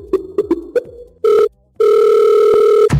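A telephone call being placed: four short dial beeps, then a brief steady tone and a longer steady ringing tone, loud and clear, ending in a click.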